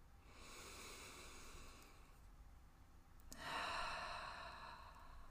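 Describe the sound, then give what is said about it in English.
A deep breath taken during a guided relaxation, heard as two soft, airy rushes of breath, the second fuller and louder, with no talk over them. “Let's take a breath.”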